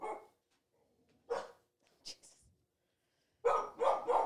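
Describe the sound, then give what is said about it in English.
A dog barks outdoors in the country, giving a few sharp, irregular barks separated by quiet gaps, then a quick run of three loud barks at the end. “It's just outside. You're a country dog now.”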